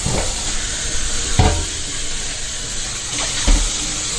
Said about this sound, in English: I'm just giving the final rinse here.